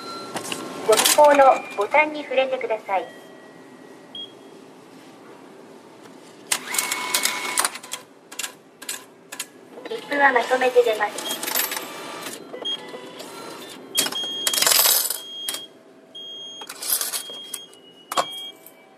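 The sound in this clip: Mechanical whirring and clicking from a train-station ticket vending machine in Japan dispensing three tickets after coins are fed in, heard in a few separate bursts, with people talking in between.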